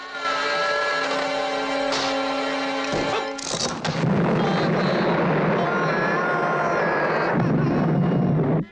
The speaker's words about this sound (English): Dreyfus's dynamite explodes. The force of the eruption shoots Clouseau over the rooftops towards a church.